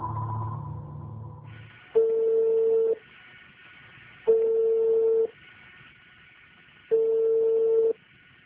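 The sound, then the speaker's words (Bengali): Telephone ringing tones while a call is being connected: three evenly spaced, steady electronic tone bursts, each about a second long, separated by quieter pauses over a faint line hiss. “আমরা চেষ্টা করছি তাকে এই মুহূর্তে ফোনে connect করবার জন্য।”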